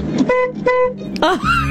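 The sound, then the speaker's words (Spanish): A car horn sounds outside in a couple of steady, flat honks, and a voice is heard right after them. “¿Querés que toque bocina? Toco.”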